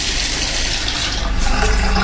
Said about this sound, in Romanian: îmi permiteți să închid apa?